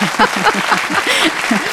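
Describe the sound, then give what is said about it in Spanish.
Applause from an audience after a performer is introduced, a dense rustling wash of clapping with voices talking over it throughout. “Un aplauso a Mariola Corega, por favor.”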